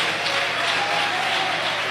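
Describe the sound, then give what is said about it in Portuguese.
A church audience claps to welcome a pastor, a steady, even patter of many hands that carries on without pause at moderate loudness. “Então vamos receber o guerreiro de Deus. Com as palmas, o glória a Deus e aleluia.”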